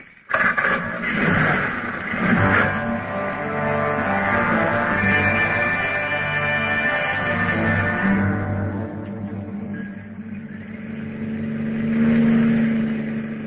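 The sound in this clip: A car engine runs steadily while driving around town, a continuous low drone with a rich hum that swells slightly near the end. No voices are heard.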